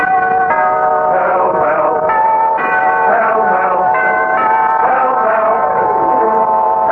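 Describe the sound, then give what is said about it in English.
Bell chimes for a Pall Mall cigarette advertisement ring out loud and continuous, with overlapping sustained tones that shift through several pitches across seven seconds. “bell for Pall Mall.”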